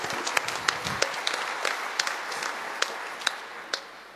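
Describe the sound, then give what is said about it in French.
Sparse, scattered hand claps from the audience for the national chaplain before a Catholic Mass, with a few sharper claps standing out over a quiet background. “Et puis, merci à l'aumônier national. Voilà. On peut l'acclamer.”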